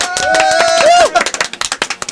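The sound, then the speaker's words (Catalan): Sparse, uneven clapping from a few people in a room during a roll call of names. A short vocal call comes first, then quick, irregular claps run to the end. “Et pots aplaudir tu mateix, que sembli que hi hagi més.”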